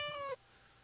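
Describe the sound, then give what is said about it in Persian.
A cat gives a single short, high, clear meow that cuts off abruptly, leaving only a faint low background hum. “مثل هلو ناز، مثل پرقو نرم، مثل گربه ملوس”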